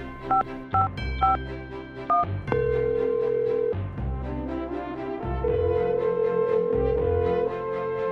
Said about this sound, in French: je vais l'appeler